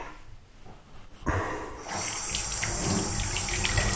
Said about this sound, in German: Hände abspülen. Ja. So macht man das.